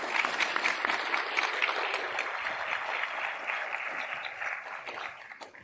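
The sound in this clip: Applause from a lecture audience at LSE welcoming a professor: dense, steady clapping that holds at an even level throughout with no voices over it.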